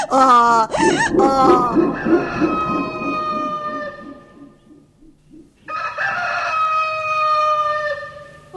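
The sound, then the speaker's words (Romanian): A rooster crowing, heard as two long, drawn-out calls. The first comes right after a brief burst of voice, and the second follows a quiet pause. Both calls are loud and strongly tonal. “Ai, surioară. Ce a cântat cocoș? Nu, lasă-mă, ce dacă s-a făcut dimineață.”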